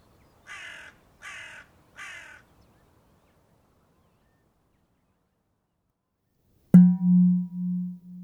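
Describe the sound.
A bird gives three harsh caws in quick, even succession. After a silent pause, a sharp click and a low, pulsing tone follow.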